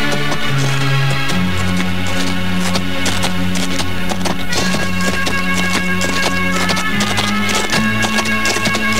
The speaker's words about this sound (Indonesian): Sepertinya ada beberapa pasukan berkuda akan melewati tempat ini.